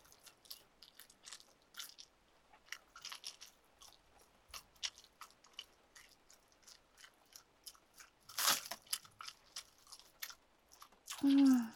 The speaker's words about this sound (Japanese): 噛むのも飲み込むのも楽しい。